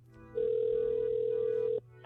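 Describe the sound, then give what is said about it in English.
Telephone tones as a father places a call to his daughter on the way to school: a low background hum, then a single steady electronic tone that holds for about a second and a half before cutting off, with another tone starting at the end. “I want to call my daughter because my wife just told me they're on their way to school right now, so I'm dialing it up.”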